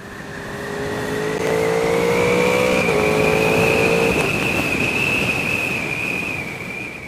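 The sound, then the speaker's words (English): A motorcycle engine revs hard, its VTEC wail a high, steady engine tone that climbs slowly in pitch over constant wind roar from the rider's open helmet visor. Lower engine tones shift in a few steps partway through. “And then, of course, when the VTEC kicks in, it just wails. And I love it. And that sounds like this.”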